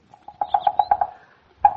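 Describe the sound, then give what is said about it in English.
A red-headed woodpecker drums on an oak tree: a rapid run of hollow, resonant taps, then a single further tap after a short pause. “Melanerpes erythrocephalus. Yeah, huh? Well, that's the Latin name of the red-headed woodpecker.”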